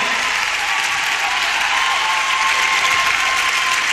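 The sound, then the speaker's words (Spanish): Loud, dense applause for Palau fills a concert at the Royal Albert Hall: sustained clapping from a large audience holds at a constant, powerful level from start to finish. “Por favor, fuerte el aplauso para Palau.”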